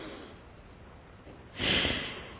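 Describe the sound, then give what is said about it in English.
Alternate nostril breathing, in through the right nostril and out through the left, heard as one loud breathy nasal rush of air that swells and slowly fades after a quieter stretch. “We close off our left nostril, breathe in through our right, and out through our left. We do that 3 times.”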